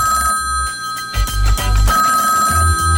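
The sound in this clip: A telephone rings as a call goes out, its bright bell tone sounding steadily and loudly through the whole stretch, layered over a low rhythmic music bed with no talking.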